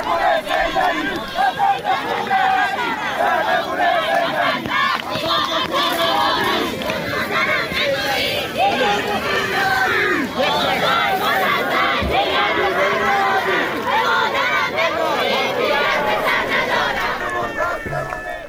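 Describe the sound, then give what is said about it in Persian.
A large crowd chants anti-government slogans at a funeral for three people killed in Semirom, held in snow and cold. Massed voices shout loudly and continuously in rhythmic bursts. “این صدای مردم سمیروم بود در مراسم خاکسپاری 3 تن از کشته شدگان این شهر.”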